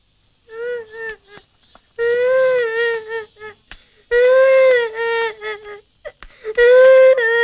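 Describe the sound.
A child crying in several high, wavering wails and whimpers, broken by short catches of breath between the louder bursts.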